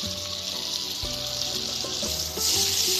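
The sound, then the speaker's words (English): Grated garlic with a pinch of salt sizzles in melted butter, a steady, soft frying hiss that runs throughout and brightens slightly near the end. “Melt our butter and cook this for about a minute until it's nice and fragrant, which it already is.”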